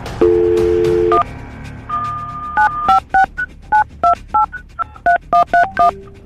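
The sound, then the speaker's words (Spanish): A touch-tone telephone dials a number. A steady tone plays first, then a quick run of many short DTMF beeps at shifting pitches in an uneven rhythm. “Ahorita le voy a marcar a Enrique”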